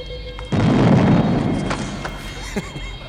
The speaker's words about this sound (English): Community theater doesn't usually have this much pyro.